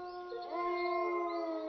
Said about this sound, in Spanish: El zorro se acercó a las cabras con mala cara y respiró una gran bocanada de aire. Un segundo después, salieron de su boca unos cuantos aullidos de esos que ponen los pelos de punta al